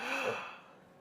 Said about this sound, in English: Take a deep breath, please, just once.